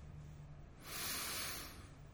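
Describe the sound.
A single quiet intake of breath, a soft airy hiss that swells for about a second and then fades over a low steady hum.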